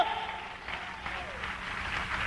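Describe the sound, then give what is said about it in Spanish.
Soft applause from a church audience clapping in praise of God during a sermon, a low, continuous patter of claps that holds evenly from start to finish. “Dale un aplauso de alabanza al Señor.”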